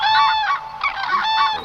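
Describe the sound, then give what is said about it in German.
Common crane calling: loud, harmonically rich trumpeting honks in a few quick bursts, running almost without pause. “Das ist der Kranich”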